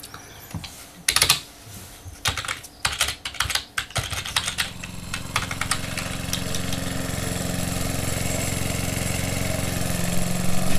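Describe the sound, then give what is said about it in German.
A lawn mower engine settles into a steady mid-pitched running drone after a few seconds of sharp, irregular clattering. The drone holds and grows slightly louder toward the end. “nun stellen Sie doch mal Ihre Kaffeemühle ab. Man versteht ja sein eigenes Wort nicht. Wie oft wollen Sie denn das bisschen Rasen noch mähen?”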